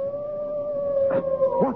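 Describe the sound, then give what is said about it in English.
A hound howls on the moor in a radio drama sound effect, a long, steady, mournful tone that holds its pitch, while a man's voice calls out briefly near the end. “That was the cry of a hound. They say it's the cry of the Hound of the Baskervilles.”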